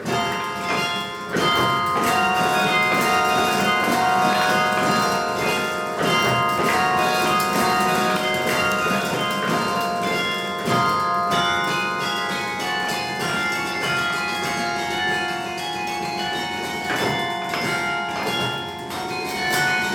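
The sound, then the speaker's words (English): Carillon bells played from inside the playing cabin, many overlapping ringing tones sustaining and decaying, with clunks and knocks of the heavy playing mechanism mixed in throughout. “I was recording in the playing cabin, so you hear all the mechanics. The Carillon's made to be listened to outside.”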